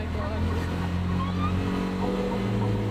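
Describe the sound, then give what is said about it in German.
Tuk-tuk engine running again after a breakdown, with its gears not working: a loud, continuous motor rumble with a steady low hum and a slightly wavering pitch throughout. “Endlich! Der Motor läuft wieder.”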